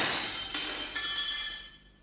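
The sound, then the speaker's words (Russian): Glass in an entrance door shatters in one dense, bright crash, the broken shards ringing and hissing before the sound fades out near the end, with no voices. “Рэнди толкнул мистера Уилбинса с такой силой, что тот даже разбил, падая, стекло входной двери”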